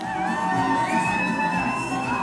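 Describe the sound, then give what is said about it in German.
Loud crowd cheering, whoops and shouts from about 200 supporters of Turkey's CHP opposition party gathered in a hall in Berlin-Wedding on election night, a continuous, excited roar that holds throughout. “Wann immer ein Wahlbezirk mehrheitlich mit Nein stimmt, jubeln sie und schwenken Fahnen mit dem Konterfei von Staatsgründer Kemal Atatürk.”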